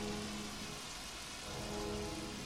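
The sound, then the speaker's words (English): Steady hiss of artificial rain from rain machines, a continuous even wash of falling water, faint and unbroken, with no voices. “So you're actually looking at rain machines right now, listeners. Not real rain.”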